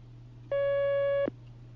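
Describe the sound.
A single telephone line tone marks the next caller being connected: one steady beep lasting under a second, set over a faint constant low hum, with no talk.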